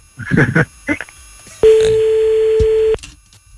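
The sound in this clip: A single steady telephone tone during a prank call, sounding for just over a second before cutting off abruptly, after a short burst of talk.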